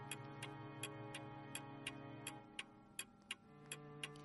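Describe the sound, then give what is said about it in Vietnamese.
A clock ticks in a room, with many faint, evenly spaced, sharp ticks in a steady rhythm over a low, quiet background hum. “Kim đồng hồ trong căn phòng khẽ chuyển động.”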